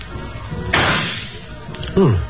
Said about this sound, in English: Give me the rifle, mister. I got five more shots coming.